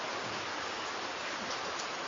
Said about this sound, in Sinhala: දැන් වහිනවනේ වහින එක ඇහෙනවා අපිට.